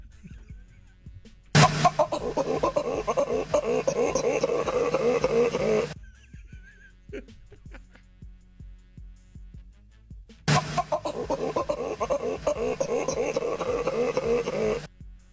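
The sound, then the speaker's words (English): Baboon mating calls arrive in two long bursts of harsh, rapid grunting and rasping cries, each lasting several seconds, with a quiet gap between them. “I got 5 seconds of baboon mating noises.”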